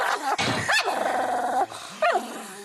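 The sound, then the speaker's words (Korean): A dog that snaps and growls at anyone snarls loudly in long, rough growls broken by sharp bark-like yelps, with no voices present. “조금만 방심했다간 딱지에게 물린다는데요. 아무한테나 으르렁거리는”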